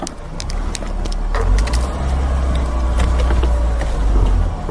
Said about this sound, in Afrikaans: Ons ry nou Rosedale Railand op. Daarna gaan ons links ry in Acacia.